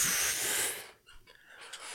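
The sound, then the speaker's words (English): A big breath is drawn in as a loud, airy inhale lasting under a second. Quieter breathy hiss follows. “Get a big breath.”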